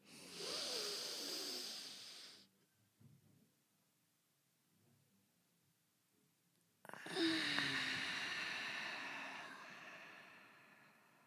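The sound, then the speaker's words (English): A deep inhale during a guided breathing exercise: a long, airy intake of about two seconds, then near silence for roughly four seconds while the breath is held, then a long, whooshing exhale that slowly trails off. “let's do a deep inhale and we'll hold it at the top.”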